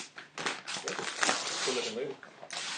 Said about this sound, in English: I was like, what am I going to do with Fuente wrapping paper? Then I'm like, oh, I know. Let me see it. I don't want to rip it. What's that? It's ripping.